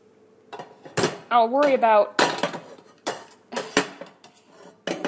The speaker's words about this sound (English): Let me just grab the pot and put it on the burner.